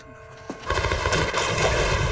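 Gunfire from an action movie trailer erupts after a brief quieter lead-in, a loud, dense burst of rapid shots that runs on continuously to the end.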